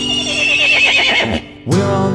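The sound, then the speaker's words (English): A big brown horse on a farm neighs in a loud, quavering whinny with a trembling, rippling pitch. A brief gap follows, then another bright burst of sound begins. “Down on Grandpa's farm there is a big brown horse. The horse makes a sound like this.”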